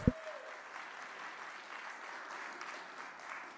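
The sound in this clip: Church audience applauding to welcome a guest speaker, a professor of Old Testament: a single low thump opens, then soft, steady clapping carries on evenly throughout.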